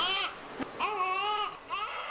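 A child cries just outside a door in the mountains, three high, wailing sobs with wavering pitch, separated by short gaps, heard alone and sounding distressed.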